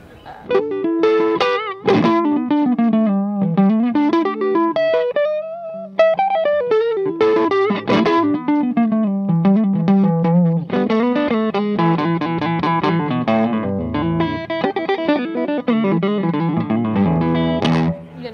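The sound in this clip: An electric guitar plays through a tube amp with slight overdrive and no effects pedal engaged. A continuous, loud melodic line of sustained single notes and chords rings throughout, mostly clean with a gentle edge.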